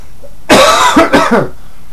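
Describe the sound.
Coughing and throat clearing from a tickle in the throat, a short cluster of a few raspy bursts, with no talk.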